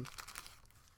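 Wax paper crinkling as it is unwrapped from a small toy squirrel: a faint stream of soft crackles and rustles, busiest at the start and thinning out, with no voices.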